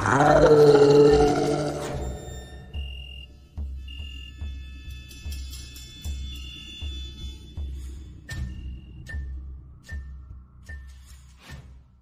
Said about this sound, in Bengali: সেই পৈশাচিক ছায়ামূর্তিটা একটা হিংস্র গর্জন করে পেছন থেকে ঝাঁপিয়ে পড়লো তার কাঁধের উপর